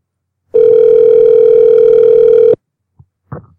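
A single loud, steady telephone tone lasting about two seconds while a call is transferred, mid-pitched and unbroken, followed by a couple of faint short sounds.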